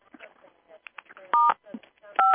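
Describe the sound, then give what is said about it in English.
Telephone keypad dialing while calling someone: two short, steady dual-pitched tones separated by a pause, set between stretches of a voice talking. “Are you there, Terry? Hello, Terry? Calling Terry?”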